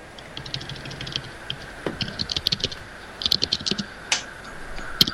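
Typing on a laptop keyboard, picked up by a built-in microphone right beside the keys: irregular bursts of crisp clicks in quick clusters, separated by short pauses, over a faint steady hiss.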